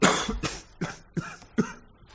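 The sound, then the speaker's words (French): A young man who seems gravely ill coughs five times, each cough harsh, rasping and wet, spaced about evenly with short breaths between, fairly loud and with no talk over them. “On tousse, jeune homme.”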